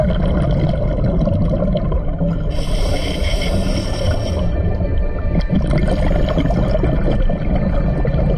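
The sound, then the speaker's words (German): Muffled underwater rumble and gurgling as divers submerge in a river, a dense continuous wash of churning water with a brighter hissing burst in the middle stretch. “Aber kaum plumpsen wir in die Aare, ist all das vergessen. Wir geben einander das Zeichen, okay, alles klar, und tauchen ab.”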